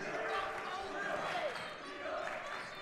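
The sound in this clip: A basketball being dribbled during a PIAA 5A boys state semifinal high school game, Exeter against Erie Cathedral Prep, its bounces blurred into steady gym crowd noise with no clear separate thumps.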